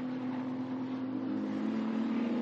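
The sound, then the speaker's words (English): Loud, steady engine roar from LMP2 race cars coming out of Mulsanne corner, a continuous drone with a strong constant low tone and broad noise, holding at an even level throughout. “The 34 car doing the chasing. They're coming out of Mulsanne corner now with the Luxembourgish team up ahead.”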